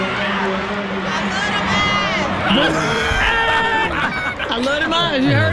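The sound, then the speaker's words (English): An audience cheers, screams and chatters continuously as actor Michael Ealy is announced with the cast, a dense, sustained roar of excited voices with no break. “And here's Michael Ealy gets announced. And listen to the audience, though. They wouldn't stop. This went on for about a minute or two.”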